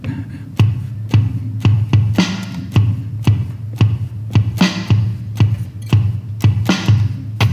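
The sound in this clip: A one-man band's live drums: a steady, evenly spaced beat of sharp kick and snare hits over a sustained low bass tone, repeating many times with a driving rhythm.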